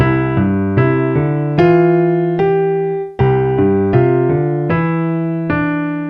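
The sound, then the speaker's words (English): Piano plays the Ode to Joy melody over a broken-chord left-hand pattern: bass note, upper note, bass an octave higher, then a middle note. Steady, even notes ring clearly in two phrases, with a brief dip in loudness between them. “Okay, so Ode to Joy again.”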